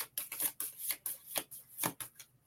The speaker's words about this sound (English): Wow, we're getting some cards tonight. I'll pull one of these.